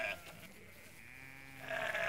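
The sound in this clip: Sheep bleating at feeding time, all ewes. There are a few wavering, harmonic calls, a short one at the start and a longer one near the end, fairly faint with no talk.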